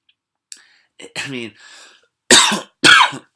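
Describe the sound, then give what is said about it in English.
Two loud, harsh coughs in quick succession near the end, preceded by a few softer breathy throat and mouth noises. “sorry, gotta use the cough button next time”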